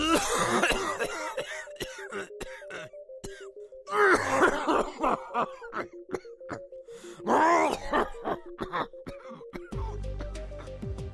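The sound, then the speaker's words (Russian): A violent coughing fit: a long run of harsh, ragged coughs with groaning and throat-clearing, loud and irregular, broken by brief gasping pauses. No words are spoken. “Джелли неожиданно прервался, сильно закашлялся и ухватился за свое кресло, чтобы удержаться на ногах.”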